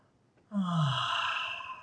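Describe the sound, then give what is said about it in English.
A single long, slow, deep breath out, heard as a soft breathy sigh that begins abruptly and fades gradually over more than a second. It is quiet and has no other sound around it. “Or you can let yourself breathe deeply, like long, slow, deep breathing, like,”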